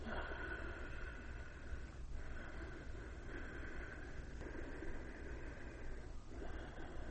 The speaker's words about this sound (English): And actually, you're constricting something here, okay, and it's not with your nostrils, okay. It's like down here, and you don't do it to your mouth, but you do it like this. Listen.